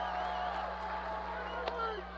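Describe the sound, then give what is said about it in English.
Crowd noise fills a baseball stadium at a Triple-A Iowa Cubs game, with the bases loaded on a full count. A steady, dense murmur of many voices holds throughout, with a brief sharper burst of cheering near the end. “The crowd is back. Bases loaded. I-Cubs up for the 3-2 pitch.”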